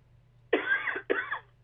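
Two harsh coughs come in quick succession over a faint low hum.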